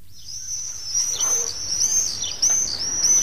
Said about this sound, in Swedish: Ja, de låter för övrigt de här tornseglarna så här.